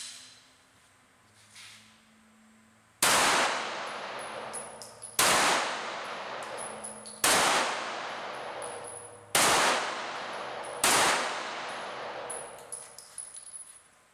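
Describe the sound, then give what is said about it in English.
Five loud gunshots from a full-size Stoeger STR-9 pistol, each a sharp crack with a ringing metallic decay, spaced roughly two seconds apart after a quiet opening. “All right, well, let me try a few rounds and see what it feels like.”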